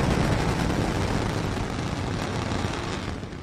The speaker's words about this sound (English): 5, 4, 3, 2, 1, engines full power, and liftoff. Go Falcon, go IMAP, go SWIFO L1, and go Corruptors.